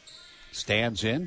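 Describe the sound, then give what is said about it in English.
A basketball bounces twice before a free throw during a game, each bounce a short dull thump heard under an announcer's talking. “2 bounces, shot is up. And off, no good. 0 for 2 from the charity stripe.”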